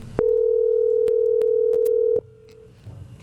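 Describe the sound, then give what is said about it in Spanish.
A telephone ringback tone on an outgoing call: one steady mid-pitched tone held for about two seconds, then cut off, leaving faint background noise. “Ahí está timbrando.”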